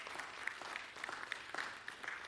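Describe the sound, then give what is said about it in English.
Faint applause from an audience at a morning gathering, a soft, continuous patter of clapping with a few sharper individual claps popping out irregularly above the wash. “Yeah, you can go ahead and clap for that.”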